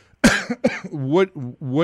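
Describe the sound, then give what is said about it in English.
A person coughs twice in quick, sharp bursts, then gives a short voiced, throaty rasp, close and fairly loud with no other sound. “I didn't use the cough button again”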